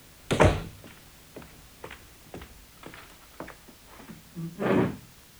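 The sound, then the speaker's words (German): A door slammed shut by someone storming out of a room: a sharp heavy bang at the start, a few faint knocks and taps after it, then another broad, heavy thump near the end. “Plötzlich dreht er sich um, stürzt aus dem Zimmer und wirft die Tür hinter sich zu.”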